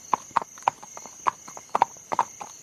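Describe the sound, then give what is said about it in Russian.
Hooves clip-clop as horses pull a squeaking britzka carriage in a wagon train on the steppe. A quick, uneven run of sharp hoof knocks plays over a steady, thin, high whine that lasts throughout. “Дениска ахнул на лошадей, бричка взвизгнула и покатила”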